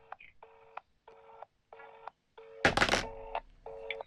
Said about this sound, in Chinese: 稍等，我手机正在拨通。